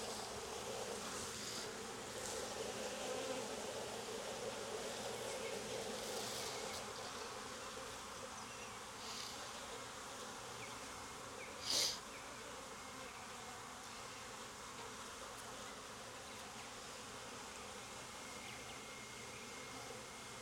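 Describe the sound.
Honeybees hum in an open hive during a frame inspection after smoking, a faint, continuous, even drone with one brief sharper sound partway through.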